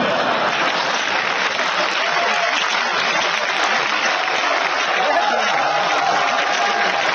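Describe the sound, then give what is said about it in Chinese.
Audience applause at a stage performance by a comedy duo. Dense, steady clapping runs unbroken for the whole clip and stays loud throughout, with no clear pauses. “各位您就别鼓掌了，你这不是拿我开心吗？”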